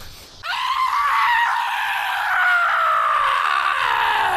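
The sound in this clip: A man lets out one long, loud, gravelly scream that sounds more like a growl, harsh and strained, held for about four seconds as its pitch gradually sags lower.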